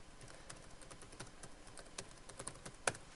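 Faint typing on a computer keyboard while registering an account: many quick, light key clicks in an uneven rhythm, with one sharper keystroke near the end.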